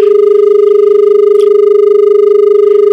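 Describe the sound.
A telephone dial tone sounds after a caller's call has dropped: one steady, unbroken electronic hum holding the same pitch for the full three seconds, fairly loud, with no voices.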